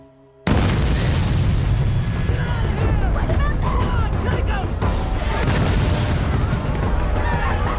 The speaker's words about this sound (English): The village is attacked with rocket fire.